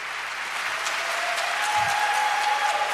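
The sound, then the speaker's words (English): Audience clapping rises as listeners are urged to keep applauding a speech. It is a steady, dense patter of many hands, fairly loud and continuous throughout, with no voices standing out. “Clap. Keep clapping.”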